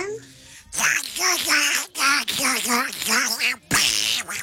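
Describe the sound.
A child's voice imitates a cartoon duck in nasal, squawky, quack-like phrases, coming in several bursts broken by short pauses, with a fuzzy hiss at the very start.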